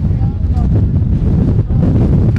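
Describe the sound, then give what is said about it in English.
Strong wind roars and buffets the microphone in a sandy desert off-road racing area, a heavy, continuous low rumble that stays loud and steady throughout. “I don't like the wind either.”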